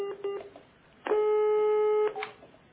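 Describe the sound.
An unanswered telephone call gives a ringback tone: a few short beeps, then one long, steady, even tone lasting about a second before it cuts off.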